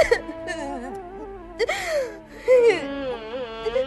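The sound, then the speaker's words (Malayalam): Someone crying in a Malayalam drama, with wavering, high, wailing sobs and whimpers that rise and fall, broken by sharp catching breaths. “ആ എന്താ ഇത് വെറുതെ ആവശ്യമില്ലാതെ കരയണ്ട”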